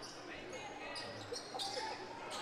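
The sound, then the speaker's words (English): Basketball bouncing on the court during a boys high school game, Exeter vs. Archbishop Carroll, the thuds blending into steady crowd noise from the gym. “Ball bouncing around. Exeter retains it.”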